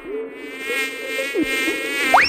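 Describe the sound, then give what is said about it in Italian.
A fly buzzes on and on, a thin, whining tone rich in overtones whose pitch wavers and wobbles throughout. It sounds alone and at fairly even loudness, with a brief sharper rise near the end. “Chiappa la mosca.”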